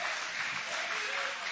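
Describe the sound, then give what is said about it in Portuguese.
A church audience applauds during a Portuguese-language worship service, a short burst of dense, steady clapping at moderate loudness. “Pode aplaudir a Ele, pode glorificar, pode exaltar, pode adorar.”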